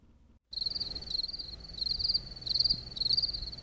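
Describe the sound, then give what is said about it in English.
Crickets chirp as a sound effect: a high, shrill trilling that starts suddenly after a brief gap and continues in repeated pulsing bursts over a faint low background. “What? No one wants to talk about this? That's a cricket joke, y'all.”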